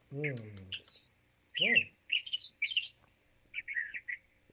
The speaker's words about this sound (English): I was going to say, yeah, I can drink that and listen to the birds chirp.